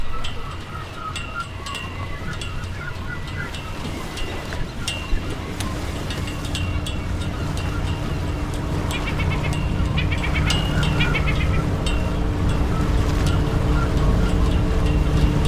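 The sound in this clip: Fishing boat casting off and motoring out: a steady low engine drone with a tonal hum that grows slightly louder partway through and runs continuously to the end.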